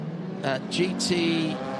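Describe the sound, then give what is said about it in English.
Race car engines droning at the Abu Dhabi 6 Hours as green flag racing resumes, a steady rumble with a held harmonic tone and a few brighter bursts beneath talk. “In fact, there it is. The engine noise picks up from our effects bikes and we are back to green flag racing.”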